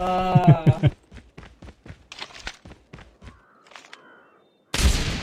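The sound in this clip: Gunfire from the video game Call of Duty Mobile: a quick run of sharp, crackling shots follows a short voice, then a loud, dense burst near the end.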